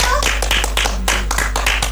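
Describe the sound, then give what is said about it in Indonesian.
Children clapping their hands in a quick, fairly regular rhythm, with many sharp claps following one another evenly over a low hum. “Aplaus dulu anak-anakku.”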